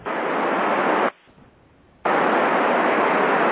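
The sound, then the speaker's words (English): Rushing static hiss of an open FM radio channel carrying no voice, loud and steady, cut off for about a second of near silence before returning at the same level. “And that's the sound of a channel, an FM channel, without any voice on it.”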